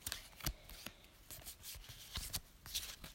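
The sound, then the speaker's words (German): Pokémon trading cards being sorted by hand: faint, soft flicks and rustles of card stock sliding and tapping, in a few irregular quick bursts, with no talk. “also ich, ich sortiere die Karten.”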